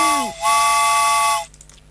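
Train whistle for a train arriving and waiting: a short tone sliding down in pitch, then a brief dip before a sustained, bright, steady whistle blast of about a second, with a hissy tail fading after it.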